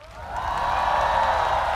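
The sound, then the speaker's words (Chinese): Applause and cheering from an audience welcoming singers and their guest performers at a singing competition round. The crowd noise swells quickly at the start and then holds as a steady, dense roar for nearly two seconds. “让我们用热烈的掌声欢迎每位歌手和他们的助演嘉宾。”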